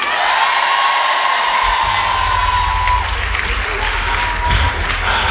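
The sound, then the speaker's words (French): A live concert crowd cheers and applauds at a free show at Le FIL in Saint-Étienne. The clapping is loud and continuous, with whoops and shouts mixed in, and it holds a steady level throughout. “Un maximum de bruit pour eux et elles, s'il vous plaît.”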